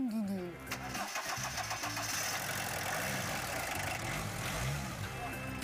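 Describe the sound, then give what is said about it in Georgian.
An old Soviet-style car fitted with a Fiat engine cranks, catches and settles into a rough, rumbling idle with uneven revs, while people talk over the running engine. “საბჭოთა მანქანებისგან მხოლოდ გარეგნული იერი დარჩა. შეგიძლია დაქოქოთ?”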